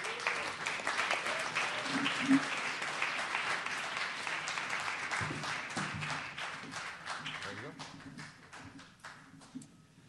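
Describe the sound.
Audience applause welcomes a guest speaker: a crowd claps steadily with voices mixed in, and the applause gradually thins and fades toward the end.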